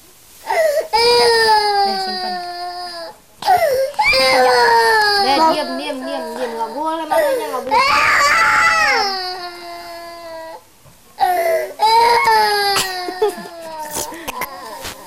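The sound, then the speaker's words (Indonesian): A child cries in long, high wailing bursts, several of them, broken by brief pauses for breath and sobbing. “Jangan nangis dong.”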